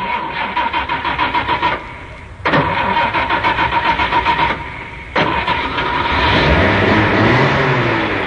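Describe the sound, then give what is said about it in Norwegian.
A car engine started with the ignition key during a driving lesson: three bursts of rapid, rhythmic starter cranking separated by short pauses, the last catching into a steady running engine. “Om dere kunne være så snill og vri om på den lille nøkkelen som sitter her, så prøver vi en liten start.”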